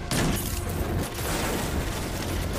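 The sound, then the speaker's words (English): Dense, loud gunfire from a Destiny 2 Gambit match: sustained overlapping crackling bursts fill the whole stretch with no clear gap between shots. “Oh, I gotta reload. I only get 4 bullets in the mag. Dang it, they're all shooting me.”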